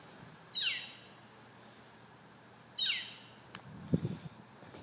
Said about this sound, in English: There's a couple crows on a fence. It might be like a baby crow or something.